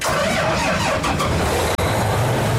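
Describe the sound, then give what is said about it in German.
Steady engine drone from a combine harvester on a farm in Züssow, started and checked ahead of the harvest season. A continuous, loud low rumble runs throughout, broken by one brief cutout near the end. “Der Mähdrescher auf dem Hof von Sebastian Fegler in Züssow soll in die Erntesaison starten.”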